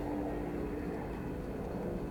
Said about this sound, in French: Tiens, encore un avion, mais moins proche.